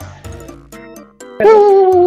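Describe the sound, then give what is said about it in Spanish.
A dog barks and yaps several times in short harmonic bursts, then lets out a longer, louder tonal cry that holds to the end, with no talk over it. “El perro ya está diciendo que sí.”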